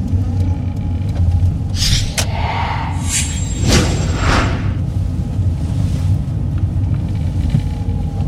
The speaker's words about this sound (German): Ich fahre schon schneller als erlaubt, aber bei dem Verkehr geht's nur mit Blaulicht schneller.